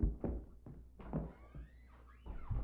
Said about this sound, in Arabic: هالحين اطق عليك الباب